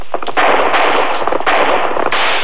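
Gunshots ring out in a radio western drama, a few loud, sharp blasts in quick succession, each trailing into a rough, booming tail that keeps the sound dense throughout.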